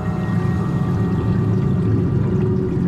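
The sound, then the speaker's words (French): Air bubbles from divers gurgle underwater in a vast flooded cave chamber about 50 metres deep. The sound is a dense, steady, low bubbling rumble that continues throughout. “Gargouillement des bulles qui se perdent dans le noir.”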